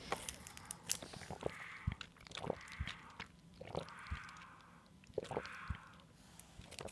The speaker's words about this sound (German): So, wir müssen mal was trinken. Es klingt heute merkwürdig. Ich habe so ein Trinkpäckchen und es wird nicht gut klingen.